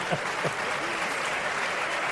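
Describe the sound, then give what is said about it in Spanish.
Steady audience applause greets a caller on a Spanish-language live call-in show. The clapping forms a dense, even wash that holds throughout, with a faint voice surfacing briefly near the start. “No sé por qué coño te aplauden”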